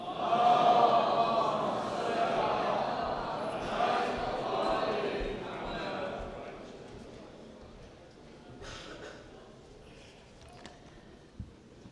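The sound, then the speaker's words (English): Audience at an Islamic gathering reciting salawat aloud in unison, a loud swelling mass of voices that gradually fades to a quieter murmur, with one sharp knock near the end. “Sheikh Bahmanpour will deliver his speech on the topic of Imam Khomeini, a mystic politician. Please welcome him to the loud salawat.”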